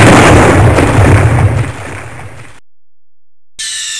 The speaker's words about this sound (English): Firing main cannon.